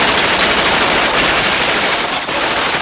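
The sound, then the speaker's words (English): Sustained automatic gunfire in a dramatized scene where shots hit a video screen, a loud, dense, unbroken rattle of rapid shots. “Bullets bounce off the video screen where Hauser's face flickers.”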